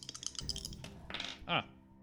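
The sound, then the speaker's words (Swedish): Two dice rattle and clatter across a table during a tabletop role-playing game. The faint, short bursts of clicking follow softer tapping, and people talk quietly nearby. “Då får du ju slå 2 tärningar också.”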